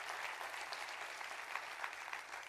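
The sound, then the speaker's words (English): A church audience in Tulsa applauds with faint, even, continuous clapping that holds steady for the whole stretch. “Let's give all of them a great hand. Come on, let's do that.”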